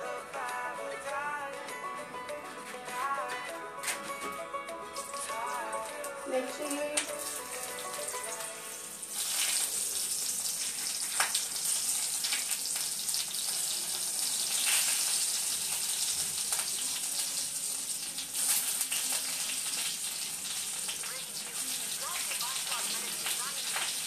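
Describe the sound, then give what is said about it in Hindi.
Onions fry in a pan with a steady, crackling sizzle. The hiss grows louder and denser about a third of the way in, and a voice talks during the quieter opening stretch. “हम डालने वाले प्याज इसके अंदर”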